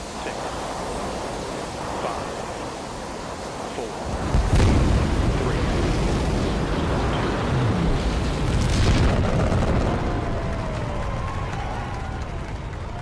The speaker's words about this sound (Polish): Odliczanie już się rozpoczęło, silniki rakietowe włączone. A co start wahadłowca ma wspólnego z bohaterką naszej audycji